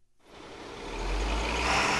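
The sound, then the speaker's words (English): A truck engine rumbles as trucks haul food away from a bustling commercial kitchen in Warren, Michigan, a low drone that swells from near silence to a steady, fairly loud roar. “It's 7 in the morning when trucks start taking food out of this bustling and hot commercial kitchen in Warren, Michigan, just outside Detroit.”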